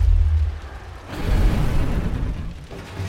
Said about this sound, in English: There's just a blasting sound, the smell of singeing fur, the smell of singeing meat, the cracking of bone